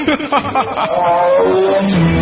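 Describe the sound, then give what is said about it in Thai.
A royal bull elephant trumpets: a few rough pulses lead into a loud, sustained brassy call whose pitch slides steadily downward. “พรายมหิรามุขของเรานี่ช่างสง่างามจริงๆสมแล้วที่เป็นช้างคู่ใจคู่บัลลังก์พาราณสีของเรา”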